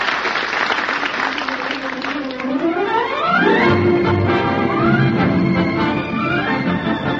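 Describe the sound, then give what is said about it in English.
A theatre audience gives a warm ovation as actors take their bows at a small theater off Times Square: loud, continuous applause that swells midway, joined by music climbing steadily upward in pitch. “the audience is giving them a great ovation.”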